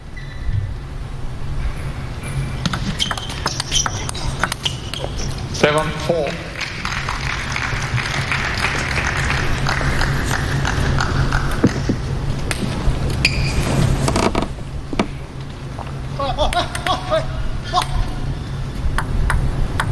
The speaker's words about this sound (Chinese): 你听他这个乒乓球撞到这个球台上的声音啊，这球拧得非常转。